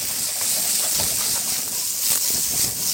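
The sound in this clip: Steady sizzling and hissing from a frying pan of browned, crispy potatoes as onions and bacon are added, a continuous bright crackle at an even level.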